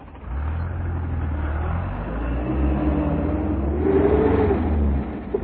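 A car engine as the vehicle drives off toward a crime scene: a steady low rumble that swells as the engine revs, with a rising engine tone through the middle, and no talk.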